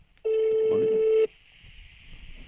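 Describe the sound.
A telephone ringback tone sounds as a call is placed: one steady, loud electronic tone lasting about a second, then a faint hiss on the line.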